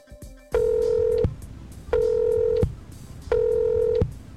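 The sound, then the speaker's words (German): Telephone tones on an international call to Guayaquil, Ecuador: three steady, evenly spaced beeps of the same pitch, each lasting under a second, separated by short gaps of faint line hiss. “Dieses Mal habe ich nach Ecuador und zwar nach Guayaquil telefoniert.”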